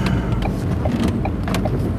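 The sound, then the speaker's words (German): A car drives into a supermarket car park, giving a steady, loud low rumble of engine and road noise that stays even throughout with no clear changes and no talking. “jetzt fahre ich gerade eben schnell noch was einkaufen”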